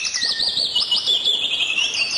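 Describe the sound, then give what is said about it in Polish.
Birds sing in a quiet mountain landscape, giving continuous high, bright chirps and trilling phrases. The birdsong sounds alone, with no voices. “więc jest tu cisza, śpiew ptaków, jest spokój.”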